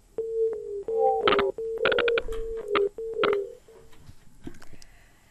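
Telephone line tones from an incoming call-in call to a radio show, a quick series of beeping dialing tones at a steady pitch, some overlapping higher chirps, with no talk.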